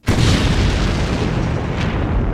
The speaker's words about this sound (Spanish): Dos hornos de fundición explotaron matando a decenas de obreros y destruyendo animales y plantas.